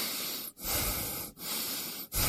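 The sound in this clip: Breathing of a person following spoken commands to breathe: a few long, hissing airy breaths, each separated by a brief silent break, fairly faint and with no talk.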